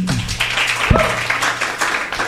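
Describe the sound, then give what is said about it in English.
An audience gives a round of applause after a panel discussion, a steady, full patter of clapping that holds at an even level from start to finish. “Thanks a lot to our group. Can you give them a round of applause?”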